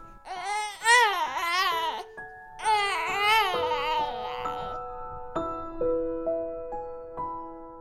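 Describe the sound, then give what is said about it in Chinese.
A baby cries in wavering, high-pitched wails with breaks between bursts through the first half. Sustained, steady tones follow afterward. “你忙着哭，忙着睡。 肚子饿了吗？还是尿不湿了？乖乖， 别哭别哭，快点睡哦。”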